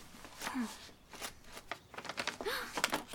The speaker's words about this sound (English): Here, an envelope? Open it.